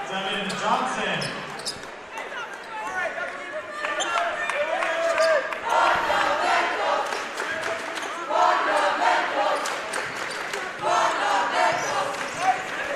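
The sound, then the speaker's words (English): Fans in the DeForest student section at a high school basketball game shout trash talk, loud ragged yells over a constant crowd din, with bouncing ball thuds and talking voices mixed in. “And you hear a little trash talk there from the DeForest fan section behind us.”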